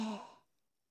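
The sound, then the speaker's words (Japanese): A single deep exhale during a deep-breathing exercise: a soft, breathy sigh that is loudest at the start and fades out within about half a second, heard alone and quiet. “吐いて、お腹で大きく吸って、すべて吐き出す。吐いて、”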